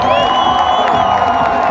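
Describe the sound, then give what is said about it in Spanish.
An audience cheers and whoops for a finalist group at a Pacific violin music contest, a brief, loud, unbroken burst of crowd noise. “el aplauso para Caña Brava.”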